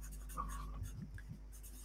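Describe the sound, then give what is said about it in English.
Faint scratching of a pen or pencil as someone sketches quickly on a sheet of paper: a few soft, short strokes over low steady background noise. “So the first thing to write down, if you have a piece of paper, is, I'll sketch this up really quickly”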